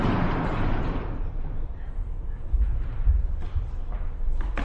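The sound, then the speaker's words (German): A classroom blackboard is pushed upward, giving a broad rumbling slide that fades over about a second and a half, followed by a few low, dull thuds as it settles. “Okay, dann diese Tafel hoch und gehen wir weiter.”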